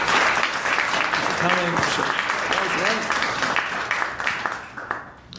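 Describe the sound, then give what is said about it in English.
An audience applauds to welcome a comedian to the stage, with steady, dense clapping and a few cheering voices. The applause holds strong, then thins and fades toward the end. “But please welcome to the stage the wonderful Marcus Coleman. Give it up for Marcus Coleman.”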